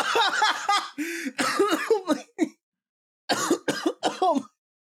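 Phlegmy coughing and throat clearing comes in a rapid run of raspy, voiced bursts, then a short pause and a second, briefer cluster.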